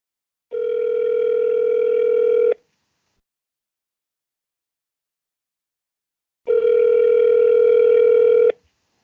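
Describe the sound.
A phone ringing out on speakerphone gives two long, steady buzzing tones of about two seconds each, separated by roughly four seconds of silence.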